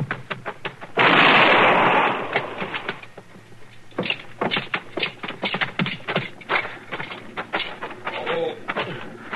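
A single gunshot in a radio drama, a loud, sharp blast with a brief sustained tail, followed by a run of lighter knocks and taps.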